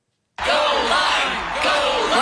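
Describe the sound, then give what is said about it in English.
After a short silence, a crowd erupts at once into loud cheering, whoops and yells, a sustained roar of excited voices that dips slightly and then surges again. “Cheering for a fruit. No, not the fruit lime.”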